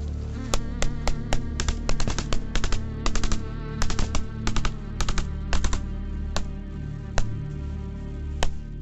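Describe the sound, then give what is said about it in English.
Gunfire from a gunfight between soldiers: many sharp, irregular shots crack in quick clusters and scattered singles over a steady droning background. “5 minutes on, and the gunfight continues. Let's go, let's go, let's go! Keep firing, lads.”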